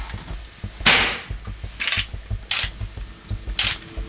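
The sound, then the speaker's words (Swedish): Four sharp gunshot cracks from a weapon test-fired inside the nursery of the pastor's villa in Knutby, the first loudest, with irregular gaps between them and faint shuffling in between. “Man släpper in journalister i huset under rättegången för att provskjuta vapen.”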